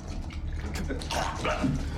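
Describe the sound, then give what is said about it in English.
Whiskey poured from a bottle into a man's mouth while his head is yanked back: dense, continuous liquid splashing and gurgling, steady and fairly loud for the whole stretch. “yanks back his head and pours whiskey into his mouth.”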